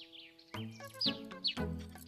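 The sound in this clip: A baby bird chirping, a few faint, high, short peeps that sweep downward in pitch.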